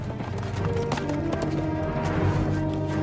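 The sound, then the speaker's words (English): Horse hooves clatter as a rider gallops off through a misty village, a quick, steady run of hoofbeats that stays fairly even throughout. “The inspector mounts his own horse and rides off after her through the misty village.”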